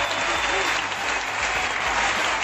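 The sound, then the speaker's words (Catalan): A stadium ovation for Alexia Putellas from 5,428 Barça supporters after her last match at the Johan Cruyff: continuous thick applause and crowd noise, steady in level from start to end. “5.428 culers van brindar a Alexia l'última ovació.”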